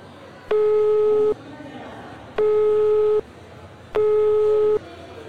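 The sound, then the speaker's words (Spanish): A telephone ringback tone plays while an outgoing call is being placed. Three steady buzzing tones, each just under a second long, are separated by even pauses over faint background noise. “para, déjame hacer una llamada.”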